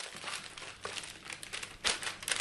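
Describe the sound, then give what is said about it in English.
Wax paper crinkling as newly made Camembert cheese is wrapped on a farm: a faint, continuous papery rustle with a few sharper crackles. “newly made Camembert is being wrapped in wax paper and put into little round wooden boxes.”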